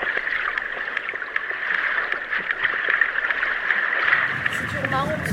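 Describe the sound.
Sperm whale clicks recorded underwater from two whales feeding at depth: many sharp, regular clicks over a steady hiss, with two click trains running slightly out of step.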